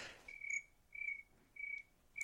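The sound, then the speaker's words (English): Crickets chirping as a sound effect, four short high-pitched trills at an even pace with quiet gaps between, faint and heard alone. “Can we have the crickets, please?”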